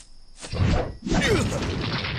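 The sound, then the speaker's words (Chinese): A cave door is smashed open. Two loud, heavy crashing impacts are each followed by a sustained rushing, splintering roar, with no talk. “大王，不好了，洞门被和尚打破了。”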